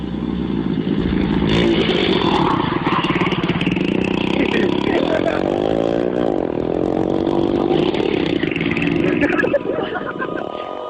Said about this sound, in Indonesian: segera saja saya menstarter motor saya melanjutkan perjalanan pelan-pelan.